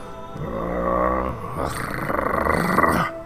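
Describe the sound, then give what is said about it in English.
A six-legged beast gives a guttural growl, a deep, rough, rumbling snarl held for about three seconds that turns more ragged and pulsing in its second half before cutting off abruptly. “falling on two of its six legs, but pushes itself back up, turns towards you, gets low, with a guttural growl.”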